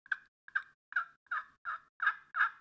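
Soft turkey yelps played on a friction call with a laminated striker held like a pencil: seven evenly spaced raspy yelps in a steady rhythm, each about equally loud.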